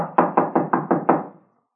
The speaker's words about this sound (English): Door's locked, all right. Well, let's try knocking.